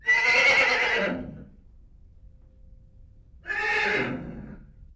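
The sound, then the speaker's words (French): A horse neighs twice, each whinny a loud, shaky, high-pitched call lasting over a second and separated by a short quiet gap. “Qu'est-ce que c'est? C'est le cheval.”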